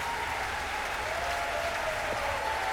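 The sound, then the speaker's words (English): An audience applauds jazz musician Ellis Marsalis at the 46th New Orleans Jazz and Heritage Festival. The crowd claps in a dense, steady roar that lasts throughout. “Keep your hands together, stand up for the great Ellis Marsalis.”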